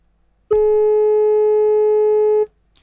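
A single steady electronic phone tone sounds after a call drops, holding one flat mid-pitched note for about two seconds on its own before cutting off abruptly.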